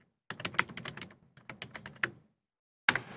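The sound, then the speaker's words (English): Fingers type on a computer keyboard to enter a comment in a social-media reply box: quick bursts of crisp, clicky keystrokes, a short pause, more tapping, then one last flurry after a brief silence. “You know, now go ahead and type something in here.”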